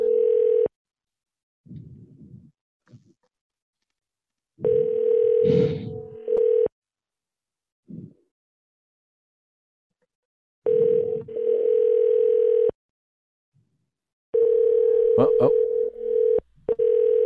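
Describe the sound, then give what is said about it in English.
A telephone ring sounds in a few sustained, steady-pitched tone bursts at uneven intervals, an unstable, rapid ringing, with people talking in the gaps between rings. “Rapid ringing, folks. We got rapid ringing. Folks, we got some. It's an unstable ringing.”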